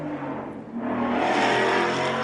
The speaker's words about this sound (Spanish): acaba de pasar una de esas motocicletas